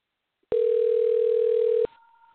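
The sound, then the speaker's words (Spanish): A telephone line tone sounds as a live call is placed: one steady, loud held tone lasting just over a second, then fainter, higher tones trailing off. “Estamos llamando aquí en vivo para saludarle a usted, a su familia”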